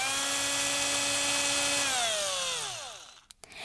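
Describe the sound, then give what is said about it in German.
A handle is screwed onto a wooden toolbox with a high, steady motorized whine that winds down, its pitch falling until it stops, followed by two short clicks. “Dann schraube ich jetzt den Griff fest.”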